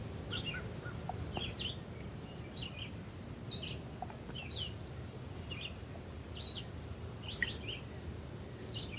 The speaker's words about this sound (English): the birds are saying, be light, be light, be light.